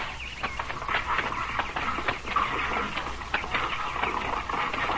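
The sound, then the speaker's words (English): Two bull moose fight, their antlers clashing in a run of irregular hard clacks, knocks and rattles, moderately loud and scattered unevenly through the whole stretch. “My son, I know what the sounds are. We hear the clashing of antlers. Two bull moose are fighting.”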